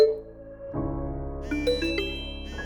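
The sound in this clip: A phone's message notification tone: a short, bright chime of a few quick ringing notes over a sustained, low tonal background.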